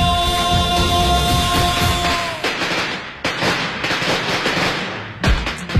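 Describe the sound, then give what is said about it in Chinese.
Dense firecrackers pop in a festive celebration that included a dragon dance. The crackle is loud and continuous, with brief dips and a final heavy burst near the end. “一场喧嚣热闹的场景渐渐散去，空气中弥漫着浓浓的鞭炮燃放后的火药气息”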